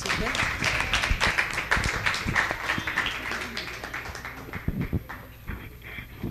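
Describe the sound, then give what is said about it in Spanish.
An audience applauds to welcome a writer, starting with dense clapping that gradually thins and softens, then swells briefly before trailing off. “Y para quien les pido un fuerte aplauso.”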